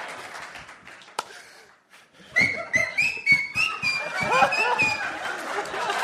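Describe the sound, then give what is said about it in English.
A high, wavering whistle from a person in a comedy club, a sustained tone with small pitch wobbles, over audience noise with scattered laughter and chatter. “That whistle was to bring everything right back to where it was.”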